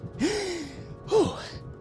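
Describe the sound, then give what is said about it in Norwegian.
Two sharp gasps for breath, each a quick, airy, rising intake with a voiced edge, separated by about a second of quiet. “Detektiv Ulvheim gispet etter pusten”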